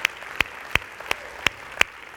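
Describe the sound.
Applause from a church service audience welcoming other campuses comes as seven evenly spaced, crisp claps over a faint, steady background hiss.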